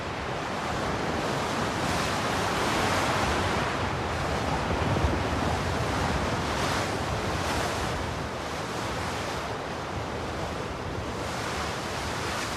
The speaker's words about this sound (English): The icy wind continues to lash through the colony.